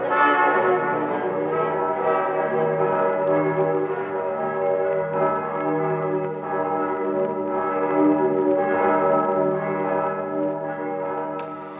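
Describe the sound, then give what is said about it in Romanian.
Church bells ring at midnight near a monastery, producing a loud, sustained wash of rich, overlapping metallic tones with many layered overtones. The ringing continues steadily without clear pauses, alone and without voices. “Clopotele bat ora în miezii.”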